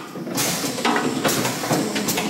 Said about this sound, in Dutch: schiet de bezinksel nu uit de fles samen met een deel van de wijninhoud. Komt-ie. Je hoort het wijn eruit spuiten.